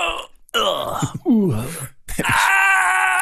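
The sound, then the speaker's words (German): A voice imitates the muffled, strangled screams of old computer games, giving a few strained wailing and groaning cries. One slides downward in pitch, and the last is a long, steady, sustained howl. “Das sind ja die Geräusche, die früher in Computerspielen immer gemacht wurden, diese unterdrückten lauten Schreie. Sie sollten laut klingen.”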